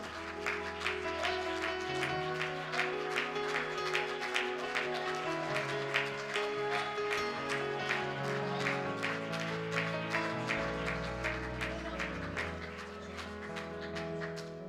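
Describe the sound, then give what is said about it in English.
A church audience claps in worship, with many rhythmic hand claps keeping a steady beat over sustained music throughout the passage. “And I think it'd be fitting to just worship God for a moment, maybe with a hand clap, for all the good things that He's already done.”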